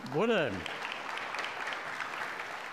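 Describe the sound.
Church audience clapping for the missions committee during a service, a steady even patter of hand claps throughout, with a voice heard briefly at the very start.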